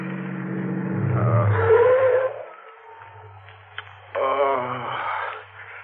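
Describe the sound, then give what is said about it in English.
A car pulling up at the side of the road at night near a closed gas station, with a loud engine and squealing tires that cut off abruptly, followed by a quieter idling hum before the engine swells again. “Pull up at the side of the road. Look, up ahead, a gas station closed for the night. We can park there.”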